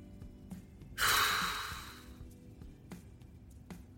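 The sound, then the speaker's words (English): A man takes a deep breath: one loud, airy rush lasting about a second that starts abruptly and gradually tapers away. A few faint, soft clicks come before and after it. “And he sort of takes a deep breath.”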